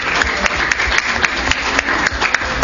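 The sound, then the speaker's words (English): Thin audience applause at the close of a talk program: a scattered handful of sharp claps at an uneven rhythm over a quiet background. “another big round of applause”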